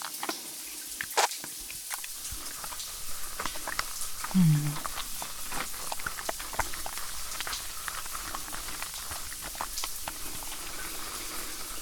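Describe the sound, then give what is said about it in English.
Water runs steadily while someone's hair is washed, a soft continuous hiss of spray flecked with faint patters and drips. “Let me wash your hair first. Come here. Tip your head back.”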